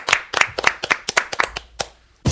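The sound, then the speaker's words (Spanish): Scattered hand claps from a small group applauding a guest in a radio studio: sharp, separate claps in an uneven rhythm, closing with a louder burst of clapping. “Un aplauso para Manuela.”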